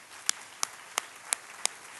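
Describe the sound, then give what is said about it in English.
Clapping at a church service: six sharp, evenly spaced claps in a steady beat, faint against a quiet background. “The fourth thing is we clap. Let's try clapping for a second here. Give me a”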